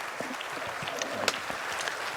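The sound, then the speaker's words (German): Audience applause sounds as a faint, dense patter of clapping with scattered sharper claps. It holds steady through the whole stretch. “Gibt ihm bitte einen warmen Applaus.”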